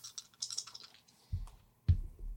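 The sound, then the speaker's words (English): A small box being cracked open, faint light clicks and rattles followed by two soft, low thumps about half a second apart. “Crack open my little box.”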